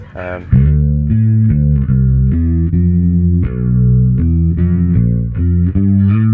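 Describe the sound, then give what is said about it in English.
Bass guitar through an Electro-Harmonix Bass Clone chorus pedal, playing a loud, flowing line of warm, shimmering, slightly doubled notes. “And then a nice chorus as well, which gets used in it's Electro Harmonics, I think, the bass clone.”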